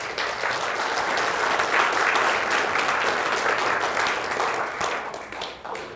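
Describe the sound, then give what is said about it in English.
Sustained audience applause welcoming Lieutenant General Dubik to an evening talk at the Pritzker Military Museum and Library: dense, steady clapping that fills about six seconds and tapers slightly at the end. “thank you, too, for being here tonight, and for your applause even before you hear what I have to say”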